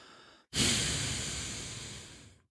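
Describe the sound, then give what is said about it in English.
A forceful exhale pushed out through the nose during a breathing exercise: a sudden breathy rush that starts strong, then slowly tapers away over about two seconds, following softer breath noise. “we will exhale rapidly through your nose for a shorter count of 2. And for this particular exhale, you want to do what they call dropping the exhale, where you push out the air with just a little bit of strength.”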